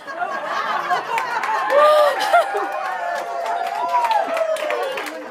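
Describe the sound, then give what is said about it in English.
Lively chatter and laughter from a live audience gathered for a channeling session in Cold Creek Canyon, Colorado. Many overlapping voices and chuckles run steadily throughout at a moderate level. “As you can hear, we have an exuberant live audience, and I am excited to welcome us all.”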